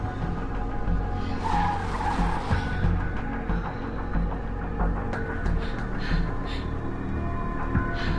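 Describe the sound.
A car driving away down a nighttime suburban street, its engine giving a continuous low rumble and hum with steady road and tire noise throughout, heard alone without talk.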